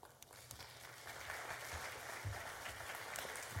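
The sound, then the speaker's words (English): A church audience applauds to welcome guests with soft, steady, continuous clapping throughout. “So at this time, I want you to welcome the Duffies, who are going to share with us a little bit this morning.”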